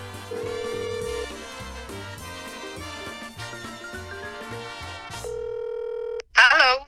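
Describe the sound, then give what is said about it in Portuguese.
A WhatsApp call to the United States is placed. A steady calling tone sounds after background music, then a short warbling electronic burst follows near the end. “A gente vai ligar agora, nesse exato momento, para os Estados Unidos, para o WhatsApp da Ana Paula do Vôlei”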